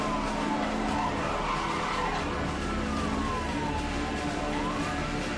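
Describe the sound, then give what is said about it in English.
Police car skidding with its siren wailing in a high-speed chase video game, a constant loud roar of engine and tires with siren tones sweeping up and down, no talk. “Good job, cop car. You really stopped that dude.”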